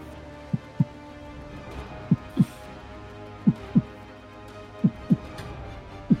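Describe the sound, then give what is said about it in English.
Heartbeat sound effect with low, dull thumps in lub-dub pairs, four full pairs plus the start of a fifth. The pairs come at a slow, even pace over a faint steady hum. “the sound of a heartbeat's getting louder and louder as your vision begins to shake more and more violently”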